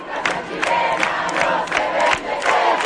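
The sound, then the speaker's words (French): A crowd of high school and university students protesting in the Chilean capital, chanting and shouting loudly and steadily, with rhythmic pulses running through the massed voices. “Et hier, 1 millier de jeunes, lycéens et étudiants ont manifesté pour dire leur inquiétude.”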